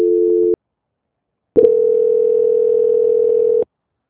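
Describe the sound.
Telephone line tone plays while a call is being transferred. A steady mid-pitched tone sounds briefly, stops for about a second, then returns as a longer, unbroken tone of roughly two seconds, with no voices.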